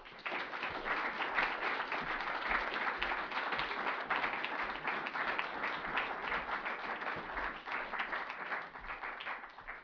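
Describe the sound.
An audience at a Hay event applauds to welcome the speakers. The clapping is dense and sustained, holding a fairly even level for about ten seconds.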